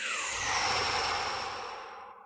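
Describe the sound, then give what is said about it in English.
A big breath exhaled in one long, airy whoosh that holds steady and then fades out, with no other sound. “All right, one more big breath. Exhale.”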